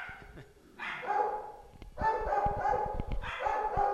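Dogs barking in a few rough, harmonic bursts separated by short pauses, faint and fairly high-pitched, with no talk over them.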